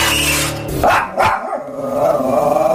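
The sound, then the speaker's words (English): A dog barks twice in quick succession, two sharp, loud barks rising out of a rough, noisy background. “What you just heard is my super friendly, totally docile, wonderful puppy, Roger.”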